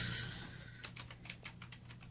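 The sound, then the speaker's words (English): Faint typing on a computer keyboard: a quick run of many light, clicky key taps that begins after a brief lead-in of low hum. “Go ahead, keep going for a second. I got to type something.”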